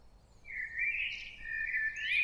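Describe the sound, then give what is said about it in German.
Thin bird twittering from high in a tree crown: a single wavering chirp that begins after a short pause and runs unbroken to the end. It is fairly faint over a soft background hiss. “Wo kommt denn dieses Zwitschern her?”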